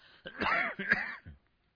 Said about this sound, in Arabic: معلش أنا يعني جو القاهرة يبدو فيه أتربة وكذا، فأستميحكم عذرا في كثرة السعال.